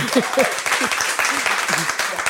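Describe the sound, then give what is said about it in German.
Dense, steady applause from an audience welcoming a long-serving cinema projectionist at a cinema event, with a man's voice speaking over the clapping. “Ich grüße ganz herzlich, Applaus für Ihr Kommen.”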